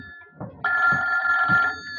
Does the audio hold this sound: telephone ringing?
yes